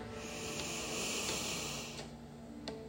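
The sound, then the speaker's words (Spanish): Slow inhale through the nose during a guided breathing session, a soft airy hiss that swells gradually, peaks near the middle and then thins out and fades. “Inhala por la nariz.”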